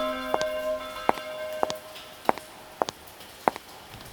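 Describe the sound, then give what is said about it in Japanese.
The bell of Banka tolls in an audio drama: a church-like bell struck in a steady series of bright, clanging strokes, each leaving a short ringing tail, heard alone with no voices. “いけない、バンカの鐘、約束の時だわ。”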